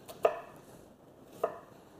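Two crisp knife chops through an onion on a cutting surface, about a second apart. Both are faint and isolated against a quiet background, with no talking.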